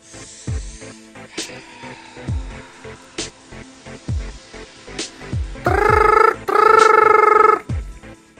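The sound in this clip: A telephone ringing on a studio call-in line: two long, loud trilling rings in close succession, following a series of soft, regular low thumps.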